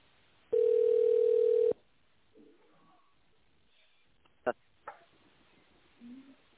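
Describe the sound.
A steady, single-pitched telephone dial tone hums for just over a second while a number is dialed, then cuts off abruptly. Faint rustles and a couple of sharp clicks follow.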